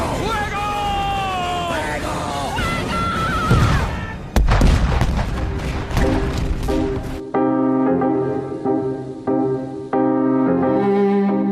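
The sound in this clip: Cannon fire in a dramatized sea battle between English and Spanish ships: a heavy boom bursts out amid shouting voices, and music follows.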